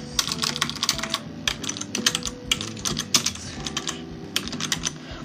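Answers are typed on a computer keyboard during a Brawl Stars quiz, a rapid, uneven stream of light clicking keystrokes with brief pauses and no talking.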